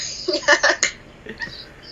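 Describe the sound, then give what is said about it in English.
Birds chirp outside an open window, with a quick cluster of high, bright chirps followed by a few fainter calls. “Sorry, my crazy window's open. Birds are going crazy.”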